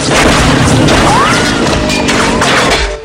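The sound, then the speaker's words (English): Bullets ricochet off huge metal cogs and rusting machinery inside a warehouse: a loud, dense barrage of booms and crashes with a brief whining ricochet tone cutting through. “Sparks fly as bullets ricochet.”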